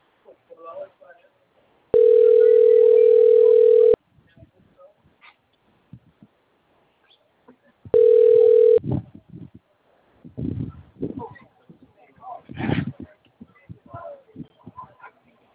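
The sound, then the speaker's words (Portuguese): Telephone dial tone on an outgoing call: a steady, loud two-second tone, a pause, then a shorter burst of the same tone, followed by brief irregular sounds. “Ligação, rapidinho.”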